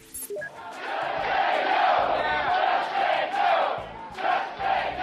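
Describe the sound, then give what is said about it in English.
Healthcare protesters chant outside a town hall in Tampa, Florida, a crowd shouting a rhythmic, repeated chant in loud, pulsing phrases with brief dips between the calls. “Now, that's the sound of a healthcare protester chanting outside a town hall in Tampa, Florida on August 6th of this year.”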